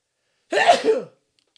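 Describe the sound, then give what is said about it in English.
A single sharp human sneeze bursts out once, loud and brief, with silence before and after it. “I almost burped and I was just like, oh, make sure not to do that. And then it was and a sneeze.”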